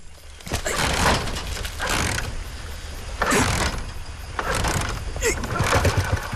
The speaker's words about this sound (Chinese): 这破车又发动不起来了。